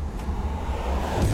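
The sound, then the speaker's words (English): Cars driving along a pothole-damaged road in Alaska give a steady, loud low rumble of tire and engine noise that holds throughout without clear breaks. “That's the sound of Alaskans dodging potholes.”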